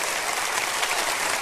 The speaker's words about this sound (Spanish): Si van a aplaudir, aplaudan bien, hombre.